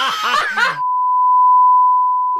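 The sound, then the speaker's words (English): A censor bleep: one steady, pure mid-pitched tone held for about a second and a half, following a short burst of talking and ending abruptly. “Beep, beep. Beep, beep. Beep it all”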